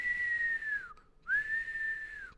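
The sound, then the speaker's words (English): Whistling breath through the nose: two thin, high whistles, each held steady and then dipping in pitch as it ends, with a short silent gap between them. “you're really experiencing that the whistling going on through the nose. It's kind of sounds like your lungs are whistling”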